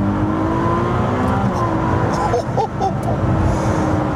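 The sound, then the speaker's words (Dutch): A hybrid V6 sports car engine, the 296, said to sound like a small V12, revs with a loud, continuous, high-pitched drone and a tonal mechanical whine. “Maar deze V6, de Piccolo V12, zo willen ze hem zelf noemen. Zo klinkt die ook wel een beetje. Hier, luister.”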